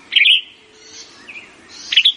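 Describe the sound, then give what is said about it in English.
Birdsong from yellow-rumped warblers and western tanagers in the tops of flowering trees: bright, high chirping phrases in two loud bursts, with a softer note between them. “The tops of flowering trees are busy with yellow-rumped warblers and western tanagers, northern nesters that winter in Mexico.”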